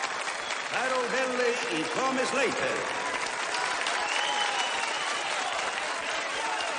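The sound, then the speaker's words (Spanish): Enthusiastic audience applause after a dance performance at a dance competition, dense and continuous clapping with voices calling out briefly over it early on and a voice talking. “El público aplaude entusiasta mientras Rafael y Patricia continúan serios tras ver la perfecta realización del ejercicio. Stefano y Steve aplauden sentados en una mesa.”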